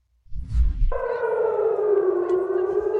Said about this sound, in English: You can hear the sirens going off.